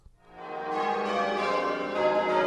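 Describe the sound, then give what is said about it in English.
Massive church bells rung in a change ringing sequence, their overlapping bright metallic tones swelling in over the first half second and then holding as a sustained, shimmering wash of ringing. “What you're hearing is a sequence of people ringing changes on massive bells.”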